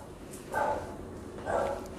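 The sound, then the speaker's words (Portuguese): Dogs barking in two short, muffled bursts, fairly faint against a low steady background hum. “Não se preocupe com os meus filhos que estão latindo.”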